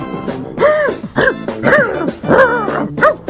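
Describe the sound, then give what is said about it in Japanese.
A dog barks in a quick series of about five loud, yelping barks, each one arching up and down in pitch, with brief gaps between them and no talk. “犬じゃんこれ。 犬が、 犬出ちった。”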